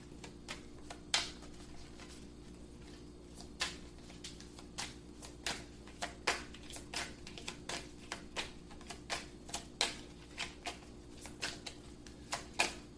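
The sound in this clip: Cards being shuffled and drawn during a card reading: many soft, irregular clicks and flicks, faint and without voices.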